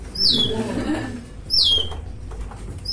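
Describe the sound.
A hand-cranked mechanical toy bird sings as its crank turns, giving two shrill, downward-swept chirps spaced about a second apart, with a faint voice murmuring underneath.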